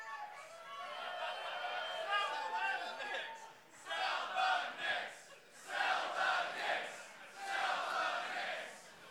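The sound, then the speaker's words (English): A live audience in Brooklyn shouting together in unison, a sustained loud chant followed by three separate roaring bursts with brief lulls between them. “And when she takes a photo, everyone just shout out, please sell the Knicks, James Dolan. Please sell the Knicks.”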